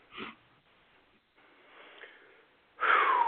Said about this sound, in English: I just took a deep breath and I think I'm all right now.